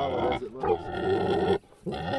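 Low, heavy grunting from a 700-pound red wattle pig stuck in a mud pit. The rough snorts are loud and nearly continuous, with one short break near the end.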